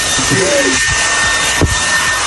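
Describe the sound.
A hair dryer runs in a bathroom with a steady, loud, airy whoosh that holds level throughout, broken by one brief bump partway through.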